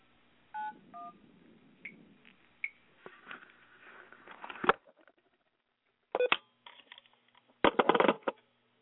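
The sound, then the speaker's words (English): Touch-tone dialing beeps as a caller dials in on a second telephone line: a few short, clear keypad tones followed by clicks and rustling handling noise, with quiet gaps between the bursts. “So I'm going to call in on this other line.”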